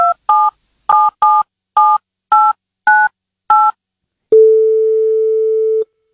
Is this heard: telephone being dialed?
yes